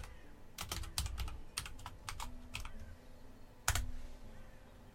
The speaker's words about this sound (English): So let me just type it, it'll be easier.